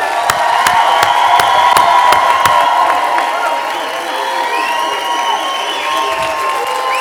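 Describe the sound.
An audience on its feet applauds and cheers to welcome a speaker at an event. Dense, loud clapping with sharp hand claps near the start blends with whoops and crowd noise, holding steady throughout.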